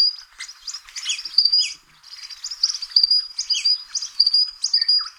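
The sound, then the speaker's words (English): Eastern Spinebill calling: rapid, high, thin piping chirps repeated in quick bursts, with a brief gap before the bright staccato notes resume, sounding alone without any voices. “Now, the Eastern Spine Bill that we just heard about, this is what the Eastern Spine Bill sounds like.”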